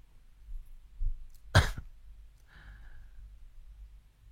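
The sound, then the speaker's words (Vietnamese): A person gives one sharp, loud cough, with faint breaths before it and a soft, breathy exhale after, in otherwise quiet surroundings. “Công nhận ho hen đọc thấy mệt quá.”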